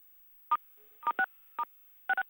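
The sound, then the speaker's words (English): Telephone keypad tones as callers on a conference call press star 6 to mute themselves. Six short, clean beeps come in uneven spacing, the last two close together, over near silence. “So if I could just request for both our guests who are listening in and our speakers who are not speaking to please press star 6 on their phone so they can be muted out, and this could be a nice, clean call.”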